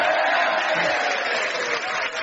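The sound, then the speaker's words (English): A live comedy panel show audience cheering and applauding, a loud, even wash of clapping and cheers that eases slightly near the end. “That was exactly the right point to go hooray, ladies and gentlemen.”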